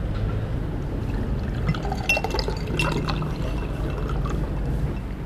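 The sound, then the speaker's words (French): Iced water pours from a carafe into a glass at a table in a Greek restaurant or bistro, a steady splashing trickle with a few faint clinks partway through. “Le serveur vient de m'apporter, comme toujours dans les restaurants ou dans les bistrots grecs, quand on s'attable, il vous apporte soit un verre d'eau, soit une carafe d'eau glacée.”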